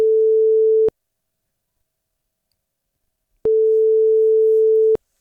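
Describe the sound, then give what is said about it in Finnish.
Ringing tone heard on an outgoing telephone call: a steady single-pitched tone, cut off after under a second, then a silence of a few seconds before a second, longer tone sounds alone. “soitan Mirkulle.”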